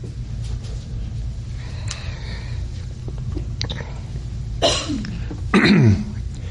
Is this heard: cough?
yes